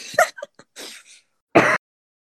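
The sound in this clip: A throat-clearing cough from an irritated throat: several short rough throat noises, then one louder harsh cough burst, with no talk over it.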